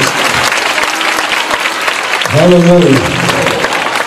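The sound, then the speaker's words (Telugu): Audience applause for God during a Telugu Christian sermon: a dense, steady wash of clapping, with a voice calling out briefly over it partway through. “ఆ దేవునికి చప్పట్లు”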